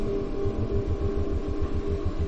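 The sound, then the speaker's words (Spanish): A car pulling up and stopping in front of an office building in Prague: a steady, low engine rumble with a regular throbbing pulse that holds at an even level. “Un coche se detiene ante la puerta de un edificio de oficinas.”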